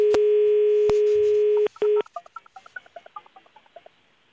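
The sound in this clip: A telephone dial tone hums steadily while someone calls a police officer's number. It breaks briefly, then gives way to a quick series of short dialing beeps at varying pitches.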